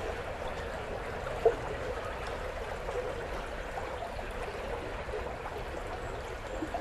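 A stream bubbles over stones at its weaker summer flow, giving a soft, steady, even wash of water. One brief small click stands out early on.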